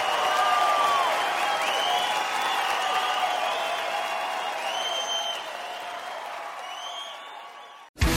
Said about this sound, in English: Clap for my gay friends tonight, who are amazing.